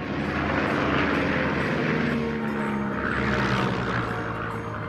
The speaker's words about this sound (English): smiles as she does aerobatics in a yellow biplane with a white cross logo on the wings and tail fin